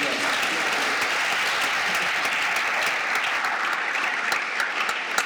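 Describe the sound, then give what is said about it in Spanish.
Steady applause from a church audience during a sermon, dense continuous clapping that holds at an even level for the whole stretch with no voices over it. “Den un aplauso al Señor y lo va a hacer.”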